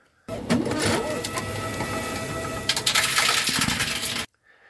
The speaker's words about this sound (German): die Flasche wieder in eine Form zurückdrucken, dass man den Barcode lesen kann, reingeschoben und nebendran den Knopf drücken, Geld zurück. Und es tönt wie bei einem Spielautomat.